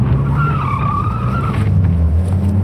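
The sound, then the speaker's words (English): Car tires spin and skid on a grass median, a wavering squeal riding over a steady rumbling engine roar for about a second and a half before the squeal drops away and the engine continues. “The car shuddered as it dipped into a grass median. The spinning tires fought for purchase.”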